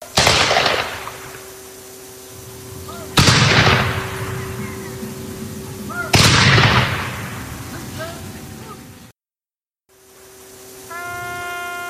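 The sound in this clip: Three rifle volleys from a firing squad at a memorial ceremony ring out at even intervals. Each is a loud, sharp crack with a long fading tail, and a quiet pause follows the last one.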